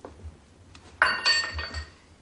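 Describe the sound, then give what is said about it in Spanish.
A broken glass goblet is tossed into a fire and lands with one sharp, bright glassy clink, followed by a short ringing rattle that fades. There are no voices. “Dolido se detiene y tira la copa rota al fuego.”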